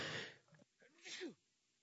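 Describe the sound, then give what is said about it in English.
A single sneeze opens with a sharp, noisy burst, then brief breathy voiced sounds follow. The whole sequence is fairly faint. “Pardon me for a moment. Woo, sorry about that. Hate to sneeze on camera.”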